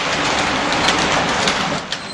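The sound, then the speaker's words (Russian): A suburban train rolls away from a stop without a platform, beside dense forest. A loud, steady rushing rumble stays even throughout and eases slightly near the end. “Здесь не было платформы и ступенек, а поезд покатил дальше.”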